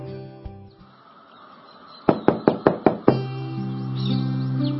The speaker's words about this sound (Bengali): আমার ঘরে আবার নক করে ঢোকা শুরু করলি কবে থেকে?